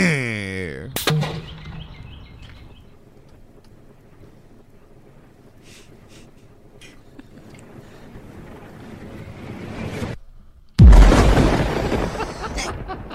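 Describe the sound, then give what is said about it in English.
Nuclear bomb test explosion: a long, quiet stretch with faint scattered sounds gives way to a sudden, very loud roaring blast that stays intense and rumbling to the end. “Because there's a calm right before the blast. You go, well, maybe it was a dud. There's birds tweeting. It creates a beautiful day until we start testing nukes.”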